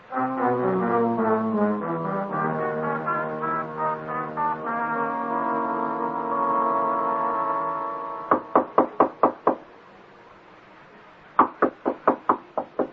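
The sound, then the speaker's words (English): Knocking on a door: two quick series of several sharp raps, separated by a short pause, following a stretch of sustained tonal notes. “I heard you knock on Mr. Morsby's door”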